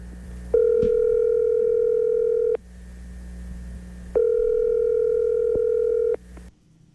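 A telephone line gives a steady electronic tone while a call is being placed. Two long, even tones of about two seconds each are separated by a pause, over a low background hum.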